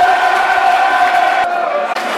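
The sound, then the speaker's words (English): Stadium crowd at a football match applauding a player as he is substituted, a steady dense roar of applause and cheering that holds at a loud, even level throughout. “Steve Morrison for Tom Elliott. Good applause for Tom Elliott, he's not done too badly.”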